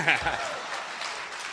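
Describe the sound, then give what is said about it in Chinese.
An audience claps at a live crosstalk comedy show after a sung traditional ballad. The applause is a steady, fairly faint patter that lasts the whole clip, with a brief voice at the start. “我一唱完你们就拍 啊， 鼓鼓掌不是不可以”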